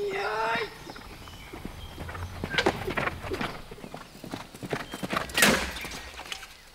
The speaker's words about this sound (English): steering the horse with your legs while at full gallop